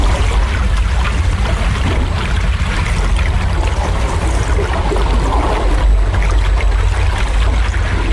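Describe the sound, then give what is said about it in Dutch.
Air bubbles rising underwater during an underwater bingo game, heard as a continuous, loud bubbling rush over a deep, steady low rumble, with no voices. “Ja, af en toe wat bellen die opsteken op het moment dat er bingo werd geroepen.”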